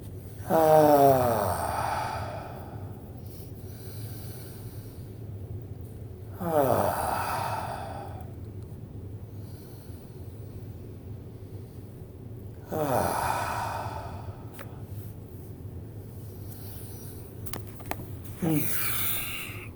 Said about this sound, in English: Let's take three deep sweeping breaths and come back.